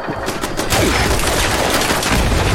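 Rapid automatic gunfire in a video game forms a dense, continuous rattle of shots. It is loud and harsh throughout and grows slightly heavier partway through.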